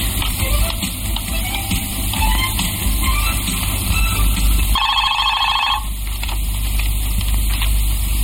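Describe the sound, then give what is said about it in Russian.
A telephone rings after a number is dialled from an office, giving one rapid, warbling ring burst that stands out above a loud, steady hiss. “В офисе мужчина сидит за столом, пишет. Набирает телефон.”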